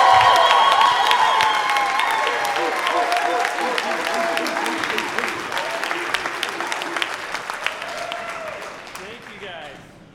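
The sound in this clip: Loud, dense applause with cheers from a church audience welcoming a speaker at a Christ Center gathering, sustained for about ten seconds and easing slightly toward the end.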